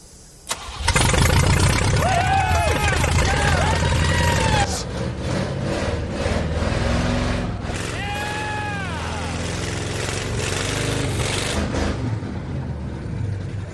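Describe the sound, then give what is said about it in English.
A vehicle engine cranks briefly, then fires and runs with a loud, steady rumble that eases slightly after a few seconds. Voices talk over it. “put it in gear and let's fire it up”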